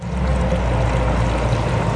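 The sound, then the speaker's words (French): Water pours continuously from a nasone, one of Rome's public drinking fountains, as a loud, steady splashing stream with no pauses. “Ces fontaines, appelées nasoni, en raison de la forme de leur bec qui ressemble à un grand nez, offrent une eau potable bien fraîche puisque le flux est incessant.”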